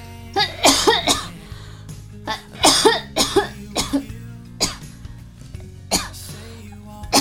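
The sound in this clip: Coughing from a suddenly itchy throat: a series of harsh, loud coughs, several in a quick cluster at first, then separate bursts spaced out with short gaps, with no talk.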